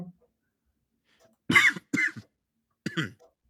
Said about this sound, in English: I hate it when I choke on my own saliva.